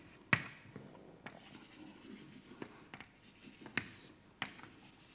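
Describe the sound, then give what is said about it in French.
Faint scratching and tapping of drawing on a board during a lecture, with a few sharp strokes and taps scattered across the quiet background. “Évidemment, je dessine moins bien que Bernard.”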